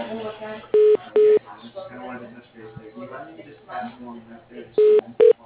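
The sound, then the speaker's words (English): A phone call is transferred to voicemail, marked by two pairs of short electronic telephone tones, one pair near the start and one near the end. Talk and line noise fill the gap between them. “I'm going to give you his voicemail because he's not in today, so hold on for me.”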